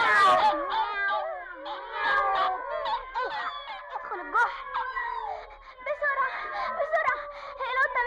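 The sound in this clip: Voices imitate a cat yowling and meowing, mixed with squeaky mouse-like cries, in a dramatized cartoon scene of a cat chasing mice. The wavering, high-pitched calls and whimpers run almost continuously for about eight seconds.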